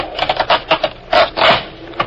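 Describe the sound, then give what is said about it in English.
A wooden floorboard is pulled up, giving a loud series of short creaks, scrapes and rubs in uneven bursts, with a longer strained scrape near the middle. “All right, pull that floorboard up all the way.”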